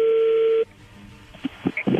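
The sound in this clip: Telephone line tones for a connecting call: a steady single tone that cuts off, then a short pause and a few quick dialing beeps at differing pitches.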